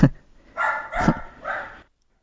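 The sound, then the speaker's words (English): A dog barks excitedly near a shed: a few sharp, mid-pitched barks in quick succession, each loud and ragged, then an abrupt silence. “Yeah, that's our dog, going berserk.”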